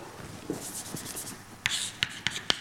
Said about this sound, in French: Et je vais peut-être juste écrire la formule en dimension 1.